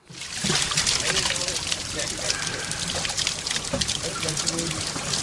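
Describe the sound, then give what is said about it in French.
Water pours steadily into buckets and cans at the Newlands natural spring in Cape Town, a continuous bright splashing and trickling that starts abruptly and stays loud and even. “L'activité est intense autour de la source naturelle de Newlands. En fin de journée, les habitants du Cap défilent près de ce point d'eau pour remplir seaux et bidons.”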